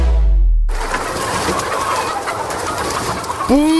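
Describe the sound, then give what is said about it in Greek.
Chickens in a henhouse: a steady, noisy wash of hen sounds and rustling, ending with one short, loud pitched cluck. “Δεν βλέπεις ότι είναι κοτέτσι? Είδα κότες και μπήκα.”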